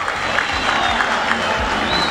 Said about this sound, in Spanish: cuando aparece Gastón Olveira para trabajar el arquero titular de Olimpia, aplaudido por su público.